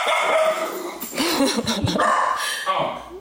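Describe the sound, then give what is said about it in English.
A dog barks and yips a few times in short, fairly loud bursts with some whimpering, the calls rising and falling in pitch. “My dog's hearing things. She's also started seeing things lately.”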